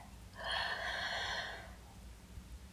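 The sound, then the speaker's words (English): Faint, single deep inhale during a guided breathing meditation, an airy breath lasting about a second and a half before quiet returns. “Breathe in desire.”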